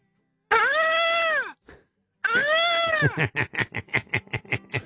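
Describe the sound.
A man imitates a peacock call with his voice: two long, loud, wailing cries with a bent pitch, followed by a rapid run of short, choppy bursts.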